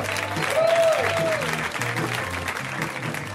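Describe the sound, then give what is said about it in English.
Audience applause for a comedian at a live comedy show, a steady, fairly loud wash of clapping that holds evenly for a few seconds. “Let's hear it right now for Mr. Matt Bronger, guys. Give it up for Matt.”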